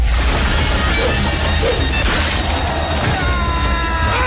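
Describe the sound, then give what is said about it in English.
Loud crashing, whacking blows and swishes of a spiked flail on a wooden handle, swung in the North African arena fight scene of the film Gladiator, thick and continuous within a busy battle mix. “We've actually got the scene of Gladiator where you can hear the flail. Can we hear that?”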